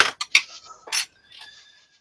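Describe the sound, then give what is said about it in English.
A spoon spun on a table gives a few sharp metallic clinks, then a faint whirring rattle with a thin ringing tone that fades away. “Oh, no, I've got a spoon I can spin.”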